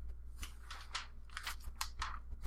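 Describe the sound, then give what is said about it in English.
Paper rustling as sewing-pattern directions are handled: several crisp, crinkly bursts of varying length, fairly faint and with no talk. “Pardon my paper noise.”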